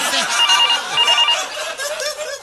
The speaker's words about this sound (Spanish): Déjeme ver acá que me están llamando.